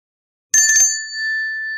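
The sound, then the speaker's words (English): An electric bell with faulty wiring is rung once after silence. A brief rattling strike is followed by a bright, high ring that sustains clearly to the end. “Wait, that's a bell, isn't it? And if I ring it, you're bound to come?”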